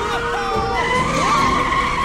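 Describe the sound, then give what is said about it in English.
Tires screech as a truck swerves and skids down a city street. Wavering, high squeals ride over a continuous, loud engine roar. “As McKibble swerves the truck down the street, Gadget flails, barely hanging on. The truck narrowly misses cars, a baby carriage, and a policeman.”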